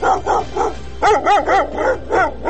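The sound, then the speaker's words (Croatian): Stray dogs in Sarajevo bark loudly in a rapid string of sharp barks with a few short pauses, some higher and yelping, others fuller. “Psi lutalice sve učestalije napadaju građane Sarajeva.”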